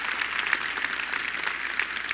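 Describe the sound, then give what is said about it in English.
An audience claps in appreciation of a ministry group with a dense, even patter of many hands that holds at moderate loudness without pause. “Why don't y'all stand up? Let's give them a round of applause for the ministry they do and what they're a part of.”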